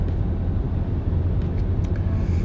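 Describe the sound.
A car is being driven, heard as a steady low road rumble and hum that stays constant throughout, with no voices.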